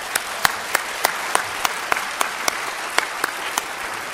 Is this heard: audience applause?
yes